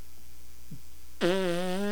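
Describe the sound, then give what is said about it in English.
A voice imitates a baby farting: one buzzy, drawn-out raspberry sound follows a quiet stretch and holds for under a second. “Is this baby farting on me?”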